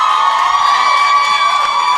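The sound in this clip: A comedy club audience at Comedy Works in Denver cheers and whoops for a guest, a loud, continuous wall of crowd noise with high shouted tones that holds steady for the whole two seconds.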